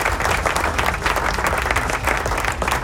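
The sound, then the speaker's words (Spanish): Applause sound effect: loud, dense clapping from many hands, a steady unbroken patter that stays at an even level from start to finish without pauses. “Estos son los aplausos. Ahí está.”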